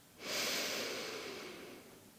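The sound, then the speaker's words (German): A deep breath drawn in through the nose: one long, breathy inhalation that starts abruptly and then slowly tapers off, with no talk. “Und noch ein drittes Mal tief über die Nase einatmen”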